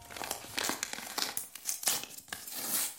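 Paper crinkling and tearing as a pale blue envelope, found with a name on it on a kitchen counter, is handled and opened: soft, irregular rustles and crackles that swell and fade in quick bursts.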